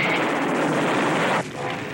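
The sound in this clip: Dense, continuous gunfire in a battle against apes forms a roaring wall of rapid shots that drops off abruptly partway through, then continues at a lower level.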